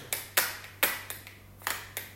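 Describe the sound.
An ordinary matchbox is tapped rhythmically by hand. Several crisp, dry taps and slaps come in a loose, slightly uneven beat, quiet and without any voice.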